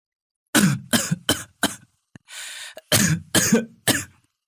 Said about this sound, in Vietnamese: cậu lại ôm ngực ho sù sụ